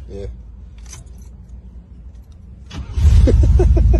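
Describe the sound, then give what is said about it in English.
A car engine with push-button start fires up immediately. A quiet cabin with a few faint clicks gives way to a sudden loud roar, which settles into a steady rumble. “Okay, that's in the wrong type vehicle, first off. That's in the wrong type vehicle because it started right away. Mm-hmm. Okay. That should be in a diesel.”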